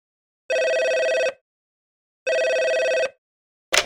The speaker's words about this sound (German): Sie hören ein Telefongespräch.